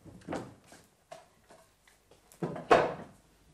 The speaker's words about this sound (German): Die Stühle alle noch auf den Tischen. Das stört mich nicht. Ich nehme mir einen runter.